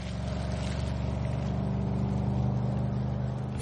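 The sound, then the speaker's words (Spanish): A car engine drones steadily as the car drives away, a low, rumbling hum that holds at an even loudness throughout. “El coche también se aleja.”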